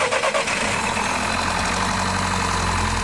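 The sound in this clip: A car engine starts during an on-site battery and charging check: a brief burst of rapid cranking pulses catches almost immediately and settles into a loud, steady running rumble.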